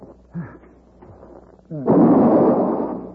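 A single loud rifle shot bursts out and rings on in a long, rough, fading roar, preceded by a few short vocal sounds.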